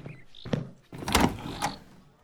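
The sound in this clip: A door being opened makes a few dull thumps and clunks, with the loudest knock in the middle and a lighter clack just after.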